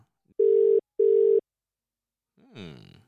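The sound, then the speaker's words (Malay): A telephone ringing tone heard while placing a call: two short, steady, low-pitched beeps in quick succession, then silence. “Sekejap, aku nak call lagi satu.”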